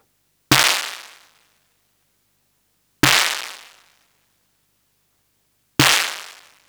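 A synthesized snare drum with its internal noise level at maximum strikes three times, evenly spaced. Each hit is a sharp, bright burst of hissing noise that fades quickly to silence, with no voices.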